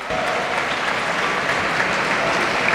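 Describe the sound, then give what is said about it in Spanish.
Audience applause and ovation for a flute soloist, second-place winner in an instrumental soloist category, as he walks up to the stage at an awards ceremony: dense, steady clapping that holds at an even level throughout, with no voices over it. “El aplauso para Michael, que ya sube al escenario, lo ovaciona el público.”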